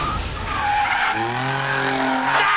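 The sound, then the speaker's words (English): Tires squeal as a car drifts through a street race in Tokyo, a loud continuous skid with a revving engine whine that climbs in pitch beneath it. “On the streets of Tokyo, the rules of racing have changed. It's called drifting.”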